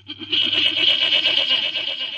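A goat lets out one long, wavering bleat that lasts about two seconds, loud and nasal with a rapid pulsing tremble throughout.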